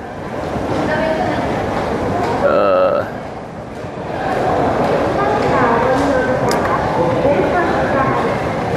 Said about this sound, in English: walking area in this train station, so the way to the trains.